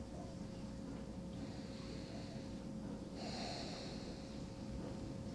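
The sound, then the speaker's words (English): A slow deep breath, soft and airy, drawn in and let out over several seconds, faint against a steady hiss, with no talking. “Take a nice, deep breath. Let's do that again.”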